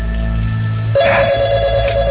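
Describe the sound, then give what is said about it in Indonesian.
An office telephone rings: a steady electronic tone starts about a second in and holds to the end over a low background hum. “Telepon di kantorku ini memang paralel. Jadi siapa saja bisa menelponku ke sini.”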